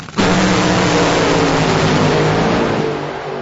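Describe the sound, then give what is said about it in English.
Drag racing cars roar down CMAX Dragway at the NHRA Carolina Nationals, reaching 330 miles per hour: a sudden, loud, sustained engine blast that holds steady and eases off slightly at the end. “These road rockets fly down CMAX Dragway at 330 miles per hour.”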